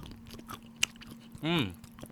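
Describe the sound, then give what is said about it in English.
A dark chocolate bar is bitten and chewed: one sharp snap of a bite stands out, followed by faint chewing and then a short hummed 'mmm' from the eater. “That's good. A little ASMR for you. I would definitely recommend getting any Ghirardelli dark chocolate bars.”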